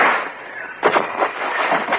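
Gunfire aimed into a tree, heard as a few sharp, muffled cracks in quick succession over a continuous hiss of noise.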